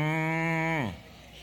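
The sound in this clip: A cow moo from a pull-string farm animal toy: one sustained, buzzy, strongly harmonic tone that holds steady, then slides sharply down in pitch and cuts off after about a second, leaving quiet.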